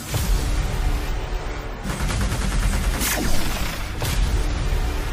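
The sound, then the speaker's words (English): Laser fire from a robot guard in a video game: dense, rapid bursts of sharp blasts and booms that crackle on without pause, loud and layered. “He's firing a laser.”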